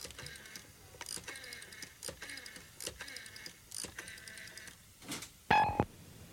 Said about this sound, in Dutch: Weet je wat? Even een nummer in Zweden bellen.